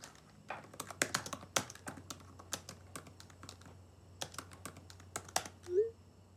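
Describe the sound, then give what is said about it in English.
A person types on a laptop keyboard, giving many quick, irregular clicks and taps in bursts with short pauses, faint and without talk. “She types.”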